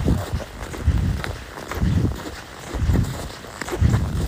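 Footsteps squeaking in minus six degree cold come as a steady series of muffled treads, about one per second, each with a low thud and a faint crisp squeak, alone with no talk.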